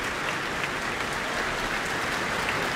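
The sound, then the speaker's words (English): An audience applauds after a piano encore, making a steady, dense wash of clapping that holds an even level for the whole stretch. “A very appreciative audience here tonight.”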